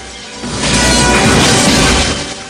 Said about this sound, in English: the mirrors splinter into a million pieces